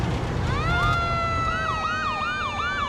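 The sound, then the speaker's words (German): Emergency vehicle sirens wail at an Oktoberfest parade near Iowa City, Iowa. A tone sweeps upward, then shifts into a fast up-and-down yelping pattern over a low background rumble of traffic. “Kurz vor Iowa City gerate ich in eine Parade mit viel Geblinke, Sirenengeheul und bayerischen Trachtlern.”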